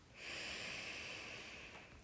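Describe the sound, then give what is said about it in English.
A deep breath drawn in through the nose during a guided breathing exercise: one long, steady airy rush that swells quickly, holds for well over a second, then tapers at the end. “settle in by taking three deep breaths in through the nose and out through the mouth. In through the nose”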